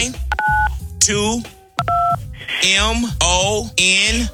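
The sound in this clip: Telephone keypad dialing tones as a caller joins a live on-air contest: two short, steady, clean electronic dual-pitch beeps, separated by a pause, set among ongoing talking voices.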